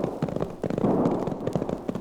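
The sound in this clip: Distant gunfire in a battle between outnumbering sheepmen and a group held up in a fortified valley. Many sharp, rapid pops overlap into a continuous rattling rumble with no talk.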